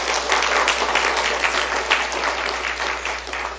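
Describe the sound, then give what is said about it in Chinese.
Warm applause from a church audience honoring mothers on Mother's Day: continuous, dense clapping at a steady level, with a constant low hum underneath. “所以再次我们给我们所有的妈妈们一个热烈掌声来感谢他们好不好”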